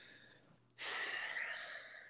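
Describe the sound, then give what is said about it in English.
A deep breath: a faint, hushed intake of air that begins sharply partway through and holds as a soft, steady rush until the end. “Another deep breath.”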